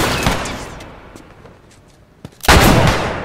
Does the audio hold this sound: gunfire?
yes